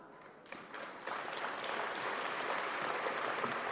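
Applause from a live show audience, faint at first and swelling in two steps into a steady, dense clapping that holds at a fairly soft level to the end.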